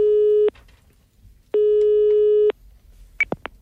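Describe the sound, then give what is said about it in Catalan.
Telephone ringback tone while placing a call: a steady, low electronic tone sounds in two long bursts separated by a pause, followed by a few short clicks. “Calleu, sisplau, que Ramon ja truca.”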